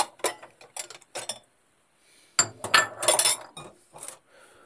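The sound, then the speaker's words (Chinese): Plates clink and knock as they are handled in a home kitchen while someone tries to fit a fish onto a steaming plate. Light, bright clatters come in two bursts separated by a short quiet gap. “我家好像没有大蒸盘耶，怎么办？先试一下。哦，不行，我家这个盘子没有那么大。”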